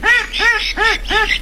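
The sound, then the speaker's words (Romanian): A duck quacks in a steady run of several loud, nasal, evenly spaced quacks, with no talk over them. “Să știi că n-a găsit curcan. Merge și rață.”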